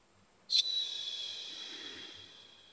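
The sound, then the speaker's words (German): A single complete exhale during a breathing exercise starts abruptly as a breathy, hissing rush of air. It then fades slowly over about two seconds and stays quiet throughout. “Empfindungen wahrnehmen und dann komplett ausatmen.”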